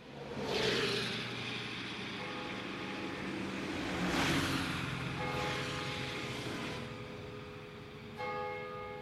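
Car driving fast on a motorway, a steady broad rush of road and engine noise that swells and eases, with faint tonal ringing appearing in the later part.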